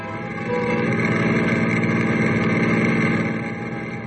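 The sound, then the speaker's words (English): A car engine drives away from a ranch house: a steady, rumbling drone that swells after the first half second, holds even, then eases slightly toward the end. “Ken and Pagan are driving away from the ranch house.”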